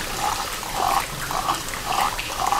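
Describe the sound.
Five rhythmic gurgling bursts from a sound effect imitating flowing water, each a soft bubbling trickle over a steady low hiss, repeated at roughly even intervals.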